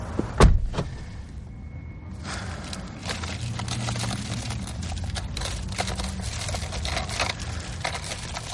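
A car door thumps as someone gets into a car, one loud low knock near the start, followed by a steady rustling wash of faint mechanical noise that runs to the end.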